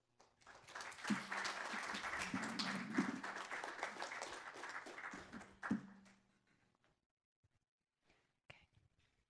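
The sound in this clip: Audience applause welcomes a speaker at a history lecture, a dense, loud burst of many hands clapping that holds for about five seconds, then dies away into quiet with a few scattered faint sounds.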